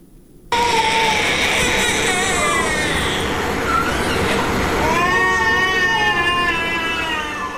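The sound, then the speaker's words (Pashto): Malnourished children cry in a hospital in Helmand. After a brief quiet start, loud, continuous overlapping wails with wavering, sliding pitch carry on throughout. “دا جړاوي د هغه هلمندي ماشومانو دي چې لوږې او بې وزلۍ تر روغتونه رسولي.”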